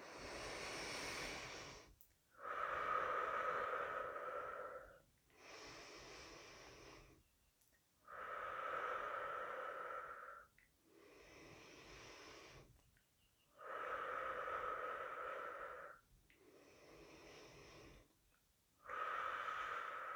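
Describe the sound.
Slow breathing in and out during a guided breathing exercise: long, airy breaths alternate between fuller, louder draws and softer releases, each lasting a few seconds and separated by short silences.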